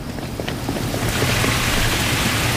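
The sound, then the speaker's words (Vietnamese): Water sprayed on a film set makes a steady, broad hissing rush with no pauses, growing slightly stronger after the first second. “Phun nước.”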